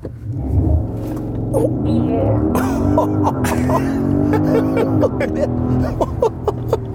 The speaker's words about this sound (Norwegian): Men jeg synes vi skal starte denne episoden med en god gammeldags rivstart.